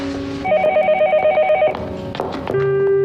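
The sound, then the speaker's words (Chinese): A telephone bell rings in a run of tonal, harmonic trills that repeat for about three seconds, fairly loud and alone with no talk over it. “哦，对不起，我接个电话。”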